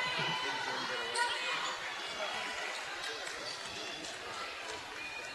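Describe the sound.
A basketball bouncing during a high school free throw, a few faint thuds under steady crowd noise and a commentator's voice.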